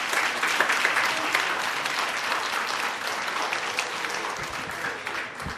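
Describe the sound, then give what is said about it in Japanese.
Audience applause follows a concert performance by an ensemble: dense, steady clapping from many hands that fills nearly six seconds at an even, fairly loud level with no voices above it. “皆様どうぞもう一度盛大な拍手をお願いいたします。本当に素晴らしい演奏をどうもありがとうございました。”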